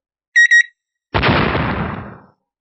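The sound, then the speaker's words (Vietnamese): Two time bombs with red clock timers give two quick, high-pitched beeps, then a loud explosion bursts out and its rumbling, noisy tail fades over about a second. “Hai quả bom hẹn giờ đột nhiên nổ tung”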